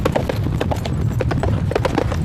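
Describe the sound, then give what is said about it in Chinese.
Horse hooves clip-clop on a racetrack at an international-standard racecourse, a fast, steady run of many sharp hoofbeats over a low, continuous rumble. “离开阿姆塔之眼，向东而行，马蹄扣击赛道的声响越来越近”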